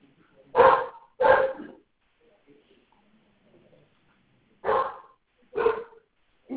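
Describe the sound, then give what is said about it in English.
Golden doodle dog barking: loud, sharp barks in two pairs separated by a quiet pause, with another bark starting at the very end. “Oh my gosh, my dog.”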